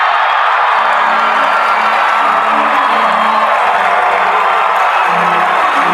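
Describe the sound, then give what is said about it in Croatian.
Audience cheering at the Oscars ceremony as Parasite is honoured. A loud, unbroken roar of crowd noise holds steady throughout. “Oduševljenje se prolomilo dvoranom i na dodjeli Oscara.”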